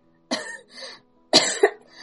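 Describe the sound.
Harsh, choking coughing from a woman sitting on the ground with her face turned purple. It comes as two separate bursts, and the second breaks into a double hack. Each burst is loud against silence.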